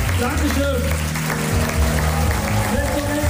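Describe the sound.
Cheering and applause from the audience at a jazz event, a steady crowd wash with a voice speaking over it throughout.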